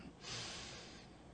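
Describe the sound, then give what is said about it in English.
A deep breath drawn in, a single soft, airy inhale that swells quickly and then tapers off over about a second, faint and heard alone. “As we do this, we're going to take a deep breath in.”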